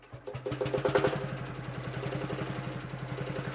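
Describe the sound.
Engine of an ancient 22 hp Landstrecker tractor idling with a steady, rapid chugging pulse, loud and low-pitched, holding an even rhythm throughout with no talk.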